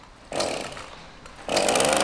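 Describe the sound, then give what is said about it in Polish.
A chainsaw cuts wood during woodcarving work, loud and buzzing in two separate bursts with a short lull between them. The second burst is stronger and steadier. “Piła poszła w ruch.”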